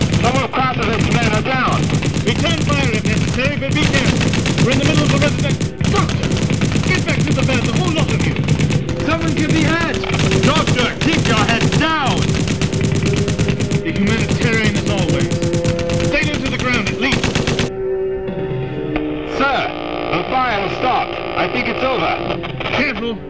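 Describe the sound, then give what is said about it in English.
Enemy machine guns fire as a radio drama sound effect, with rapid, loud rattling bursts under urgent shouting voices. The shooting stops partway through, and the voices go on over quieter sounds. “Sergeant, your status! Corporal Bishop and I are under attack! It sounds like it's coming from all around! Sergeant, can you hear me? We're pinned down by enemy fire!”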